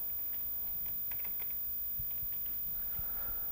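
Typing on a computer keyboard produces faint, scattered key clicks in an irregular patter, with no talking.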